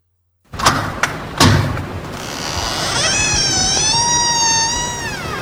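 A door being opened with three dull thuds, followed by a cat's loud, drawn-out meow.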